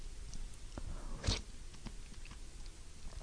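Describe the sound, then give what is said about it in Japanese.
A bite and chew of soup with macaroni, shimeji mushrooms and bacon: one brief, crunchy burst stands out against faint, quiet mouth sounds. “マカロニときのこが一緒に口に入ると、マカロニはちょっとこう柔らかくて、きのこはシャキシャキした感じで、歯触りの差もあって、とっても食べてて楽しいスープですね。”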